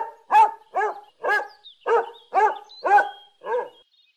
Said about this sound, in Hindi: Dog. Dog. Dog.